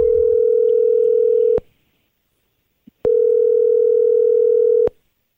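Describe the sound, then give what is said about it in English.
Telephone dial tone, a loud, steady hum that cuts off, then a single click before the same tone returns and stops abruptly. “Can I dial?”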